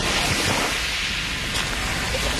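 Waves wash onto a beach in a steady, unbroken roar of surf that stays loud and even throughout, with no voices.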